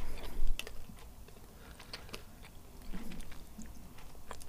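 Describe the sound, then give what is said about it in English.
Someone quietly chews a Rotten Zombie flavour jelly bean, with soft bites, wet mouth clicks and a few faint crunches. The sound is low in level, and nobody talks. “What the heck does Rotten Zombie taste like? It's the orange one. He's looking a little bit apprehensive as he pops it in.”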